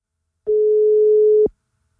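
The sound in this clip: A telephone line tone sounds during an outgoing call to a prize winner: one steady, single-pitched beep lasting about a second, alone between silence.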